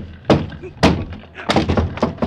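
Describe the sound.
Heavy thuds of a locked apartment door being kicked in: two big spaced blows, then a quicker run of several more loud impacts, with no talk over them.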